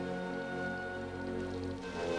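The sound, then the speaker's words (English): Rain falling on the outside of a tent, a steady, even patter of drops beneath a sustained tonal drone. “staring out at the rain”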